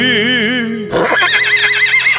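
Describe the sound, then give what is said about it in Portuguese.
A young wild horse being broken in for a ranch riding competition whinnies loudly, a shrill, wavering neigh that shifts abruptly in tone partway through and runs for about two seconds. “Relincho”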